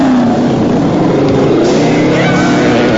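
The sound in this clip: A gang of motorbikes speeds off down a walkway, producing a loud, steady engine roar that holds without a break for the full three seconds.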